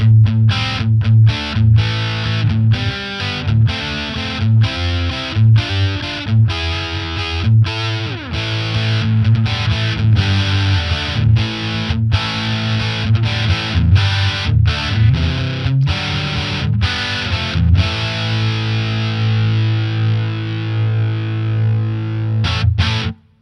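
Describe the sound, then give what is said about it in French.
An electric guitar plays through an inexpensive 50-euro overdrive pedal set to treble mode, giving a loud, gritty, distorted tone. Sharp rhythmic chord stabs and riffs run continuously, with no voices, until an abrupt stop. “On a tout ce qu'on attend d'une bonne petite overdrive et son prix de 50 euros ne lui fait absolument pas du tout de tort”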